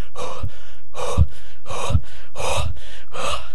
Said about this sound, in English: Totally out of breath. So tiring going uphill.